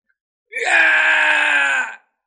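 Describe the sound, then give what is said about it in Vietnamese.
Two figures crying out loudly together in one long, harsh scream that starts abruptly, holds a steady pitch for about a second and a half, then cuts off into silence. “Vương Đằng cùng hư ảnh kia cùng nhau kêu to.”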